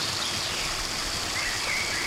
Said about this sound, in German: Guck mal, wie das Wasser hier rauskommt, wisst ihr? Das ist nämlich so, das kommt nicht so lülülülülü raus, sondern das kommt richtig raus.